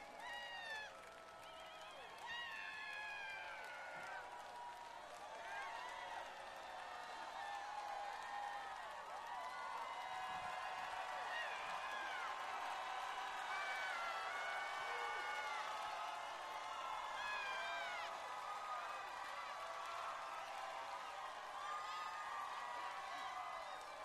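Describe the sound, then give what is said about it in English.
Festival crowd in downtown Lafayette at Festival International de Louisiane applauding and cheering for more after a set, a steady, dense wash of clapping with whoops and high whistles running throughout. “Very appreciative crowd asking for more.”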